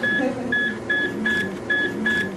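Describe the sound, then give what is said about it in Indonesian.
Repeated electronic beeps from a dialysis machine at a hemodialysis centre in Yaounde, Cameroon: six short, evenly spaced high-pitched tones over a steady murmur of room noise. “Sebuah mesin cuci darah atau dialisis ginjal di pusat hemodialisis di Yaounde, ibu kota Kamerun, mengambil darah dari pasien ginjal, menyaring dan mengukurnya sebelum dikembalikan ke tubuh.”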